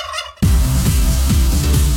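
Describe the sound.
A turkey gobbles loudly in a dense, rough, rattling burst. A short quieter sound comes just before it, and the gobble carries a heavy low pulsing that repeats at an even pace.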